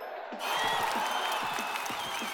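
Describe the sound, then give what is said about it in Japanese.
An audience cheers and applauds for streamer Mio at a farewell. Near-silence gives way to a sudden, steady wash of claps and cheers that holds at a modest level until the end. “本当にこうやってみんなの声援がミオをいっぱい元気にしてくれます。”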